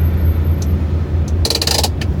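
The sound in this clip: A car engine idling aboard a ferry, a steady low rumble that runs throughout, joined near the end by a brief burst of metallic jangling.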